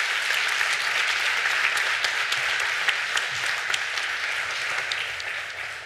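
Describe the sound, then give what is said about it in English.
Applause from a church audience honoring veterans during a service: dense, continuous clapping that holds steady for the whole stretch and eases off slightly at the end. “Give them a hand one more time.”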